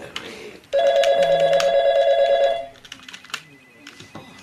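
An office telephone rings with one long, loud, rapidly warbling trill, then stops, leaving a few faint clicks and taps.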